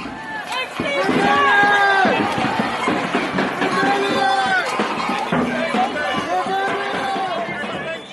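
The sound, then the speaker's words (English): A crowd of climate protesters at a demonstration, with many overlapping raised voices, loud and sustained throughout. “And all I had to do was follow the sound of the protesters.”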